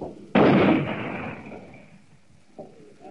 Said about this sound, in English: We've run about 12 over the hill since we fired up 75 on that tank gun.